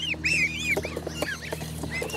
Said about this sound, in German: Eine Gans mit Haube.